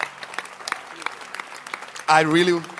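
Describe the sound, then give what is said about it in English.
An audience at a church conference claps in a light, scattered patter of separate hand claps. Then a man's voice starts speaking loudly over them. “I want you to join me. Please, let's clap our hands and appreciate Bishop Dagiwad Mills for Art of Shepherding Conference.”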